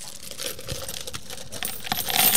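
Pennies are dumped into a penny pitch collection with a continuous jingling clatter of many coins. It lasts about two seconds and grows slightly louder toward the end.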